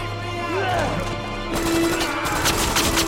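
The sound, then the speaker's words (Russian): Gunfire in a war film scene, with loud rapid shots bursting out midway over a tonal musical score, the cracks continuing in a dense cluster to the end. “Двое других расстреливают его в упор.”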